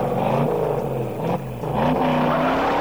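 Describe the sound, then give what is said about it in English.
A Ford Mustang drives around the hills of San Francisco, its engine a continuous roar with a brief dip in loudness midway, after which the engine pitch climbs as it accelerates. “But I think a little spin around the hills of San Francisco in the Mustang is just what the doctor ordered.”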